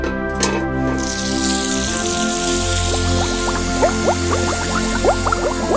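Water pours into a bucket being filled for moving koi fish, making a continuous rushing splash. Bubbling, chirping gurgles grow denser in the second half.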